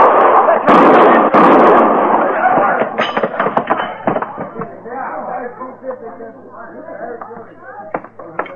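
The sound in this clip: Rifle shots in a western radio drama: a couple of loud, sharp blasts in quick succession near the start, followed by people talking.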